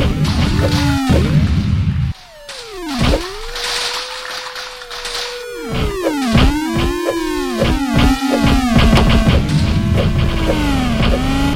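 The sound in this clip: Blocks shatter one after another in a video game bonus round, a loud, dense run of synthetic crashes and swooping whooshes with arching pitch sweeps that overlap almost without pause.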